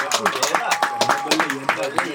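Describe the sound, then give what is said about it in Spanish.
An audience claps in a steady rhythm, with sharp clap bursts arriving about every quarter second, mixed with shouting voices. “pero puñeta, fuerte aplauso”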